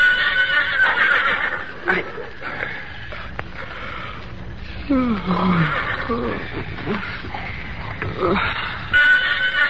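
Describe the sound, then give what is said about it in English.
A frightened pony whinnies, a shrill neigh that sweeps sharply down in pitch near the middle, set among restless rumbling and shuffling noise. “William Barclay Masterson sensed, rather than heard, his pony's whinny of fear.”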